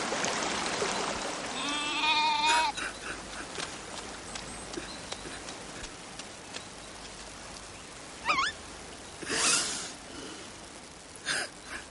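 A bleat from animals around a house where goats, hens and small children gather; one loud wavering bleat rings out early, followed by quieter rustling and a few brief, faint sounds.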